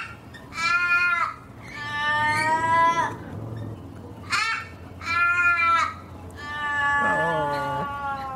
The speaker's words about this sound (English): The more raucous individuals have a long, drawn-out cry, which has an emotion all of its own. That's the one.